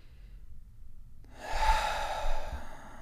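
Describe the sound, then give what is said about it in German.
Deep, slow breathing during a guided relaxation exercise. After a quiet start, a long, airy breath swells in and flows out again, soft and unhurried, with no talk. “dreimal tief ein- und auszuatmen. und lass ein bisschen Anspannung gehen, wenn du ausatmest.”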